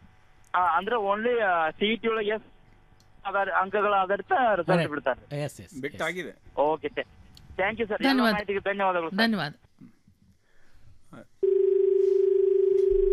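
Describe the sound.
A steady, unbroken telephone tone sounds at the end for an incoming call, fairly loud and lasting about two seconds, after a long stretch of people talking.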